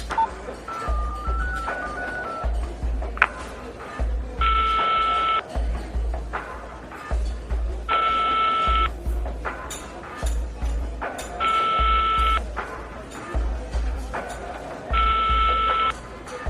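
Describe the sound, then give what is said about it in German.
A telephone being dialed, with a short run of stepped electronic tones, then four evenly spaced ring tones, each a steady mid-pitched buzz, over a low pulsing background. “Ich ruf nochmal an.”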